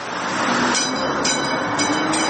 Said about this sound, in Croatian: Replika prvog električnog tramvaja iz 1895. godine ponovo je na šinama grada Sarajeva.